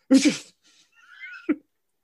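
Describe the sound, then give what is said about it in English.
A person vocally imitates a sneeze: a loud breathy voiced burst, a short quiet whistly pause, then a second sharp burst that cuts off abruptly, all within about two seconds. “I would give anything to just see him sneeze.”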